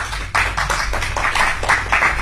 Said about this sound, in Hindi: हिमांशु अपनी रचना के साथ मंच पर आ रहे हैं, करतल ध्वनि से स्वागत करेंगे